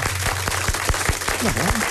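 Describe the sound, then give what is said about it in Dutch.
Clapping in a radio studio, a small number of hands producing sharp, evenly spaced claps at a quick steady rhythm, about ten in two seconds, over a low hum. “Nou, een applaus in de studio geldt keihard voor jullie natuurlijk.”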